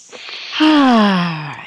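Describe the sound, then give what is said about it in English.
A deep breath is drawn in quietly, then released as a loud voiced sigh that slides steadily downward in pitch before tapering off. “the first thing I'd like everybody out there to do is to take a deep breath”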